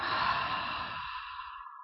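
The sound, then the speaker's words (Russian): A deep, airy exhale during guided heart-centred breathwork, one continuous breathy rush that starts full and thins out as it fades to silence. “Глубокий вдох через сердце и выдыхаем назад.”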